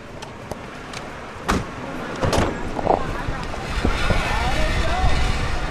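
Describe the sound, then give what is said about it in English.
Street traffic at the corner of 35th Avenue and Foothill Boulevard in East Oakland: a continuous rumble of passing cars with wind buffeting, swelling as vehicles go by, plus a few sharper knocks. “We're at the corner of 35th Avenue and Foothill Boulevard in East Oakland.”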